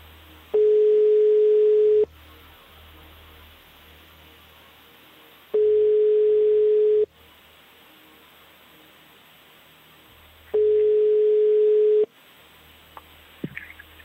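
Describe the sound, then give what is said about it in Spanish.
Telephone ringing tone while placing a call: three long, steady, mid-pitched beeps, evenly spaced with pauses between them over faint line hiss, followed by a few small clicks. “Yo estoy aquí llamando por teléfono mientras hablo contigo y demostrando que puedo hacer dos cosas a la vez. Malamente, pero puedo. Ahí está. Estamos marcando.”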